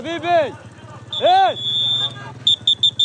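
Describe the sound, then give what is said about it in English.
A traffic police whistle shrills on a city street in Khan Yunis: one long, steady high blast, then four short sharp blasts in quick succession, with loud voices calling out before and between them. “This is the whistle of the traffic police in Khan Yunis city”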